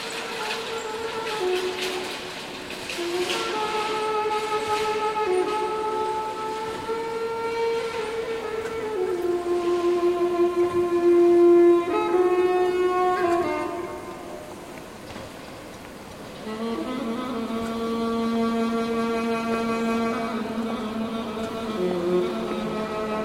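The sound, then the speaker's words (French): Ambience of the Gare de l'Est train station in Paris, a steady background wash with sustained tonal notes layered over it. It dips quieter for a short spell past the midpoint, then swells back up. “L'ambiance à la gare de l'Est à Paris.”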